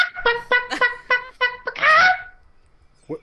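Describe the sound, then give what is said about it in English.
Chicken clucking: a quick run of short, throaty clucks, then a longer, drawn-out squawk, followed after a pause by one faint cluck. “what is that, a chicken? Did a chicken just come out of our podcast?”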